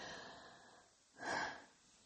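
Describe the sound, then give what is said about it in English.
A single deep breath, soft and airy at first, then swelling into a louder, breathy rush in the middle before trailing off quietly. “just like I took that deep breath right there”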